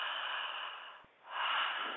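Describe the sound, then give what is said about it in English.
Someone takes a breath: two long, soft, airy breathing sounds separated by a brief quiet pause, with no talk. “So right now, just take a moment, take a breath,”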